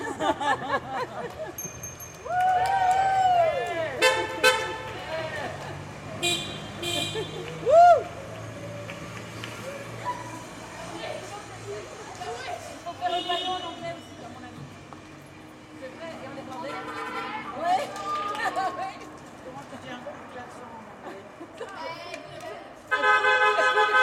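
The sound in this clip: Morning street ambience with traffic, away from the main boulevard: a steady hum of vehicles with a few car horn toots and people talking in the background.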